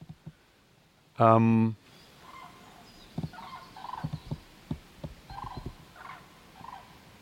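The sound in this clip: Cranes from a small flock call with one loud, harmonic trumpeting note lasting about half a second, followed by faint scattered calls under a man's quiet speech.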